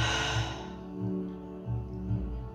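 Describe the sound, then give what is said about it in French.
A deep breath drawn in and let out during a guided relaxation exercise, a soft airy rush that is strongest at first, then fades to a faint hush, with no talk over it. “Vas-y, inspire et expire.”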